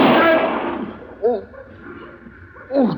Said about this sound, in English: did you shoot him in the arm of purpose?